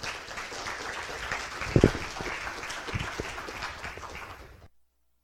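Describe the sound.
Applause from an audience welcoming a guest author to a writing talk, steady clapping with a few sharper claps before it fades out and stops near the end.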